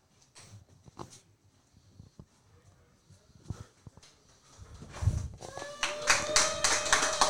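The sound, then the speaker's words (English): A crowd rising to a standing ovation at the Gen Pro Wrestling Mike B. Memorial Show: sparse, scattered claps and taps at first, then building into louder, denser clapping with raised voices toward the end. “Newsy's getting a standing O, and well, then somebody just booed.”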